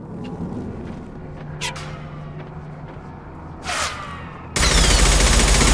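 Sniper rifle shots in a video game, fired down a hallway: two sharp cracks with a brief whooshing tail, followed by a sudden loud, continuous roar of noise to the end.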